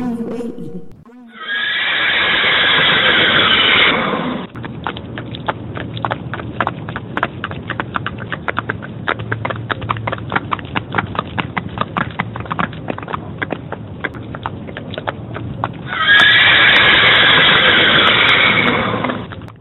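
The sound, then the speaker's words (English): Horses in the UAE neigh in two loud, drawn-out whinnies, one at the start and one at the end, with a steady run of hooves clip-clopping between them. “The sound of horses brings back both joyful and sad memories to me.”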